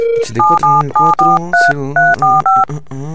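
Telephone keypad dialing a number: a brief low tone, then a quick run of several crisp, evenly spaced two-note beeps at shifting pitches, each key press short and clear, with no voices.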